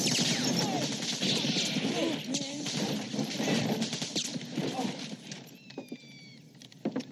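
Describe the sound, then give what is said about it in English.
AK-47 assault rifle gunfire in a war film scene: many sharp, rapid shots crack out in dense bursts, mixed with heavy crashing impacts, then thin out into scattered, separate shots toward the end. “Good Lord, what was that? Sir, that's an AK-47 assault weapon. The preferred weapon of our enemy. It makes a very distinctive sound when fired at us, sir.”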